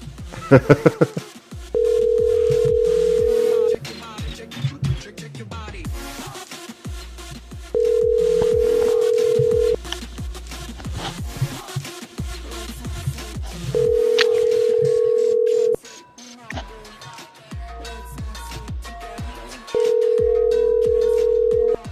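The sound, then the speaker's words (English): A telephone call rings out with four long, steady ring tones at even intervals. Busier clicking and electronic sounds fill the gaps between the rings. “Oh, no, he's had enough. It's like enough for these phone calls.”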